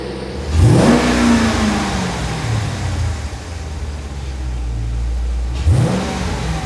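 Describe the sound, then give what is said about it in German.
A car engine revving: the pitch shoots up in a sharp rev, then eases down into a steady idle rumble, and a second rev climbs again near the end. “Ey, gib Gummi, lass klingen. Gib mal Gas.”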